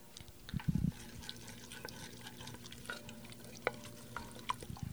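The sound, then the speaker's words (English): Chopped garlic cooks slowly in extra virgin olive oil over low heat in an enamel-lined Dutch oven, giving a faint, gentle sizzle with scattered tiny pops and a short, soft low clatter near the start. “This is an enamel-lined Dutch oven. And we have it on a low heat, but not the lowest. And we're just very slowly cooking the garlic with the olive oil.”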